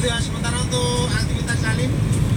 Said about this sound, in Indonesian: kita memasuki jalur Gombel. Sementara kedua arahnya ramai lancar ya Bun. Seperti ini Bu. Kondisi di turunan Gombel.